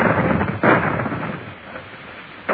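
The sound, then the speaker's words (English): Heavy gunfire from a warship's guns: two loud booming blasts, one early and one near the end, over a steady rumbling noise. “Those are the guns of the indefatigable.”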